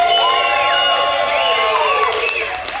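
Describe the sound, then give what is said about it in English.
Audience cheering at a live show as people return for the second half: a loud, sustained crowd roar with high whoops and shouts rising over it, steady throughout. “Can we get a round of applause for the first half?”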